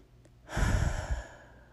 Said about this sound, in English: let's slow down. Let's take a breath.